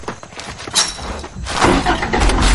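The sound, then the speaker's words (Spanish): An off-road vehicle's engine rumbles as a family sets off, a low motor sound that swells and grows louder toward the end. “¡En marcha! La familia se va en el todoterreno.”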